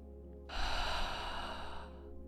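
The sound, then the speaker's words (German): One long, deep, airy breath, in through the nose and out through the open mouth, during a guided relaxation exercise. It rises suddenly and stays steady over a low, sustained musical tone. “Nimm einen tiefen Atemzug durch die Nase ein und durch den offenen Mund aus.”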